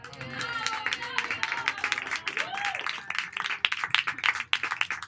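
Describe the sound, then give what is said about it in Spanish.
Applause from a festival audience for a performer: dense, continuous clapping with a few voices and a brief whoop mixed in, holding at a lively level throughout. “Un aplauso para él.”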